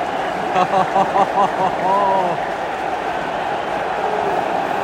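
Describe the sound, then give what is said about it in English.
Manchester United fans cheer in a stadium after their team goes 2-1 up: a dense crowd roar with chant-like surging voices early on, then a steady loud din. “Sound you can hear is one Manchester United fans because United have gone 2-1 up.”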